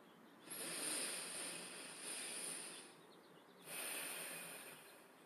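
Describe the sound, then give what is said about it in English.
Slow, deep breaths drawn in and let out through the nose during a guided breathing exercise: two long, soft, airy swells, each lasting a few seconds, quiet and with no talk. “deep breath in through the nose, out through the nose.”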